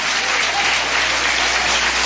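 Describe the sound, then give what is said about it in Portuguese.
Applause from a church audience praising during a worship service: dense, steady clapping that fills the short stretch evenly and loudly, with no voices on top. “Pode aplaudir ao Senhor Jesus com mais alegria.”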